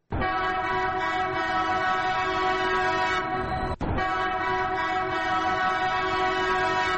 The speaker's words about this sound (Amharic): አዎ፣ የቀደመው ተመልሷል። ባቡሩ ዳግም ወደ ኢትዮጵያ መጥቷል።